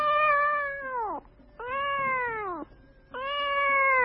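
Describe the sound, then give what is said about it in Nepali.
A cat scalded by steam from a large pan of boiling milk gives three loud, drawn-out meows, each bending downward at the end, with short pauses between them. “तातो बाफले पोलेर बिरालो म्याउ गरेर पछि सर्थ्यो।”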